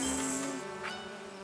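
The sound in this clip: A bee buzzes in a fairly quiet, steady droning hum with a thin, high whine above it, continuous throughout.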